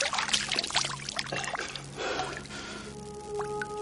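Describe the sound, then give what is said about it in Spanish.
Water splashed onto a face by someone crouched at a small pond of orange fish, heard as a few loud, wet splashes and pours that trail into quieter trickling, with faint tonal sounds near the end. “Se echa agua en la cara y los animales se agitan.”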